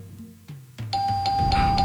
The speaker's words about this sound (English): You're a little slow on the bell.